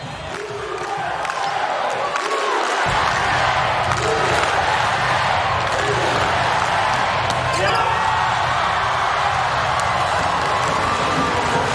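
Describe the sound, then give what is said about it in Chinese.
A ball is bounced and served during a match, with a few dull thuds heard over a steady, loud crowd roar with cheering, and commentary voices talking throughout. “阿弗里尔的发球”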